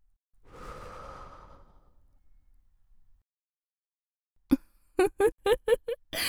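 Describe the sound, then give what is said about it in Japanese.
A long, breathy exhale, faintly voiced, is blown toward the listener by an older-sister character in Japanese ASMR role-play. It starts soft, swells and trails off over a couple of seconds, then after a pause a quick run of short voiced bursts follows. “それじゃあ、お顔を解放してから、お顔に向かって吐息を。”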